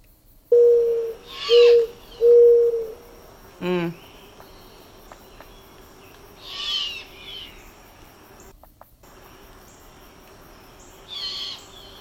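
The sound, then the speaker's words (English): Mourning dove cooing: three low, hollow, owl-like coos in quick succession, then a few fainter scattered calls over a steady insect hum. “Yeah, that's the mourning dove. That last little bit was classic Mourning Dove. So you can see why people would think, wow, we have an owl right here.”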